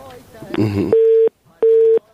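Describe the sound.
A busy tone plays after a phone call to a radio studio drops. A voice speaks briefly, then two steady, loud, mid-pitched beeps follow with a short gap between them.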